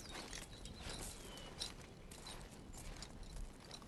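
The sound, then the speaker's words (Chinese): Footsteps sound outside a door as a faint, steady series of soft thuds in an even walking rhythm. “突然门外响起了脚步声，”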